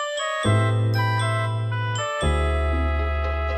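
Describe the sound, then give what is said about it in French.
A short musical jingle marking a new segment, with deep sustained bass notes under bright, chiming tones, played in two phrases with no voices. “jingle.”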